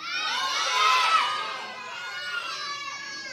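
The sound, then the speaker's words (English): Children in fifth grade and under at a church kids program shouting as loud as they can: a dense, shrill crowd roar that swells to a peak early, then eases slightly while holding on to the end. “Remember, we're going as loud as we can if you're fifth grade and under. One, two, three.”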